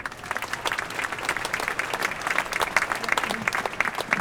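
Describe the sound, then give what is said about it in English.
An audience applauding at a Gaza demonstration on the Dam: dense, sustained clapping from a crowd that runs steadily throughout without a break. “Let's give her a warm applause.”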